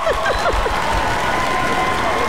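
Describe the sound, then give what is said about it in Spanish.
Applause and light cheering from an audience on a talk show, a continuous broad wash of clapping with a few brief voiced calls near the start. “Hay un aplauso, por favor, que me dio pena.”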